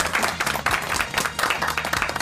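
Audience applause as a guest is introduced on a French-language show: dense, loud clapping that keeps up steadily across the whole stretch.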